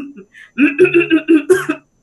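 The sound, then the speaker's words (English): A dry, tickly cough comes as a rapid run of short, harsh voiced hacks, loud and close together, after a couple of faint throat sounds. “So the dry cough tends to be a very irritating cough, and it's tickly. So it's tickling at the back of the throat”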